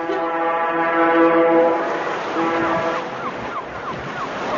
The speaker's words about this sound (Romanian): Sirena șuiera de zor.